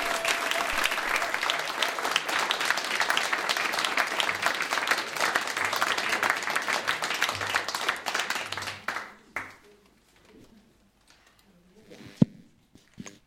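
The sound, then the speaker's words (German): Audience applause at a worship service: dense, lively clapping for about nine seconds that then fades away, leaving near silence with a few faint scattered sounds. “Also geben wir der Irina einen kräftigen Applaus.”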